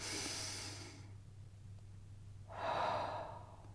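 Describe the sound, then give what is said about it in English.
A person breathing slowly in a guided breathing moment: two long, soft, airy breaths, the first lasting about a second and the second following a pause, over a faint steady low hum. “So if you didn't breathe just now, breathe with me now.”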